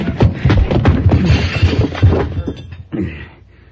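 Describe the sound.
Punches and heavy crashing thuds of a fistfight, one blow landing on a man's jaw; a dense run of loud impacts and scuffling, then a brief lull and a final smaller burst.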